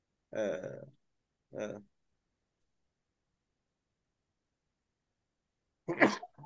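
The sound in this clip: A single loud, explosive human sneeze bursts out after two short voiced sounds and a long stretch of silence.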